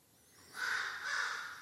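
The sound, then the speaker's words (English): Crows cawing: two harsh, drawn-out caws follow one another, fairly faint, over a quiet background hiss. “And you can't wait for the world to be totally quiet, as the crows are telling you right now.”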